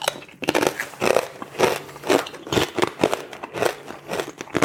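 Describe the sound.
Crunchy bites into crisp, lightly salted potato chips, a steady series of dry crackling crunches repeating roughly every half second.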